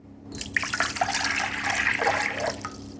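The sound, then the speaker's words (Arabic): Cold water is poured into a glass in one short, continuous, splashing pour of about three seconds, alone with no talk. “أولا أسكب الماء البارد، فقد أصغ جيدا.”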